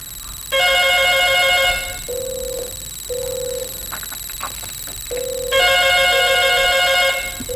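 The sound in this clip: A telephone rings with an incoming call to a radio show: two long electronic ringing bursts, bright and insistent, separated by a lower steady tone with faint clicks.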